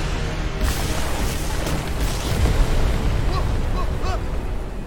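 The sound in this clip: A building explodes in a loud, sustained roaring rumble that fills the whole clip, with crackling debris over the top.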